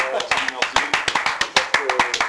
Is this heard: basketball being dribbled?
no